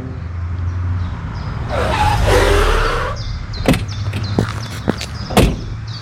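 A car pulls away in a village, its low engine rumble swelling into a broad whoosh for over a second, followed by a few sharp clicks and knocks.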